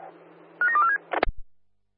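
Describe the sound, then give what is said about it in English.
Telephone keypad dialing tones: a few short, bright beeps in quick succession over a faint hum, followed by a sharp click and a couple of low thumps. “Yeah, dialing now. Stand by.”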